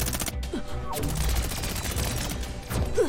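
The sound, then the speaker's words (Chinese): Catapult attack cannon firing in a video game: a dense, continuous barrage of loud mechanical blasts with a few short whistling chirps mixed in, steady throughout with no talk. “弹射攻击炮。”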